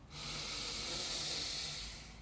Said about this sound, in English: Inhale through the nose.